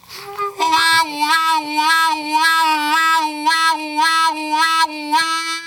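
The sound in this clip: A harmonica plays its hole two draw note with a bend, sustained and pulsing repeatedly in a wavering wow-wow pattern as the pitch dips and returns with each pulse.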